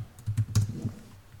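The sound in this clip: Faint, quick clicks of typing on a computer keyboard as a search is entered, a short irregular run of keystrokes over about a second and a half.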